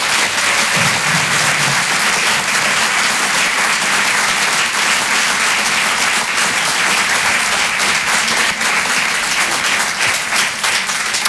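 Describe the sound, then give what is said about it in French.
Sustained audience applause at a comedy club in a Paris theatre: a dense, even wash of clapping that stays loud and steady from start to finish, with no voices rising above it. “Faites du bruit s'il vous plaît pour Malik Fares.”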